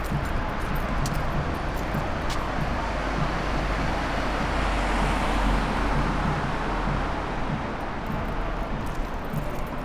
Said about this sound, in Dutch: Nog één keer een smeris auto.